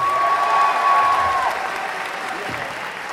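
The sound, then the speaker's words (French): Audience applause welcomes a guest at the opening ceremony of a 2015 game show convention in Toulouse. Dense, steady clapping runs throughout and drops slightly in level about halfway through. “Un premier applaudissement, David Hewlett.”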